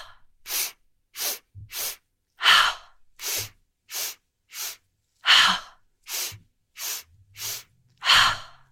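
Deep breaths in and out during a breathing exercise with arm movements, heard as many sharp, breathy bursts alone, each separated by a brief pause.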